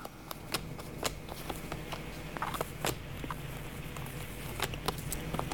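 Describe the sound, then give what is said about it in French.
Cards are shuffled and drawn for a card reading. Many soft, sharp riffling clicks and light snaps come in quick irregular bursts over a steady low background hiss. “je vais encore juste tirer quelques cartes”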